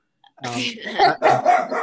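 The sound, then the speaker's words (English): Dog barking: a few sharp barks in quick succession, loud and close together, with people talking over them. “whose dog is that? Sorry, I gotta let the dog out.”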